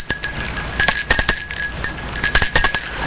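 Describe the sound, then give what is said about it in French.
A bell rung at a garden gate: many quick, bright metallic strikes in an uneven run, each leaving a sustained ringing overtone, fairly loud with no voices. “Le lendemain, à 14h30, il sonne au portail de Jean.”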